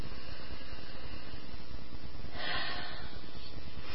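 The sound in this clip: Alternate nostril breathing, with air drawn in and pushed out through the left nostril: a soft, continuous airy hiss and a sharper, louder rush of breath near the end.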